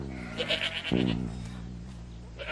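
A young goat bleats in a single wavering, nasal cry of moderate loudness, carried over a steady low hum and faint background hiss.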